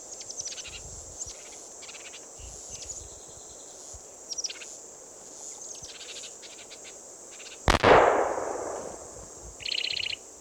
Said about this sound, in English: That was Ned's gun going off.